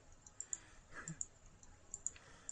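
Mouse clicks while moves are chosen in a Pokémon battle video game, many faint, sharp clicks in an irregular rhythm.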